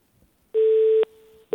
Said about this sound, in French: Alors, ça a raccroché, c'est pas grave.